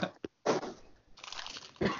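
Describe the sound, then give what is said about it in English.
Crunching of pistachios being chewed whole with their shells, heard as a few loud, crackly bursts separated by short pauses. “I'm just going to chew an entire thing of pistachios with the shells.”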